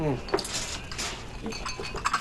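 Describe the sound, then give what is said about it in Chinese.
Bowls and chopsticks being handed out for a family meal, giving several light ceramic and wooden clinks and clatters amid voices. “吃饭。 碗筷分一下”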